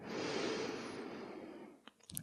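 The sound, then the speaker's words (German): A slow inhale during a guided relaxation exercise: a soft, steady breathy hiss for nearly two seconds, then a few faint clicks. “Und du wirst dir nochmal deines Atems bewusst. Atme ein.”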